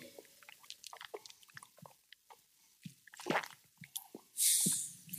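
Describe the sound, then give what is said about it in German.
Sips and swallows of rum taken right after a toast: a string of small wet clicks and squishy gulps, faint and irregular, ending in a longer breathy hiss like an exhale. “Ich kann doch immer nicht so lange warten. Ich trinke mm. doch immer schon vorne weg.”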